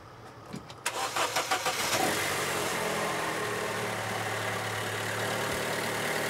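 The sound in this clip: A car's starter solenoid clicks as the engine fails to start on a weak battery. A quick run of about six sharp pulses leads into a steady, loud hiss and rumble.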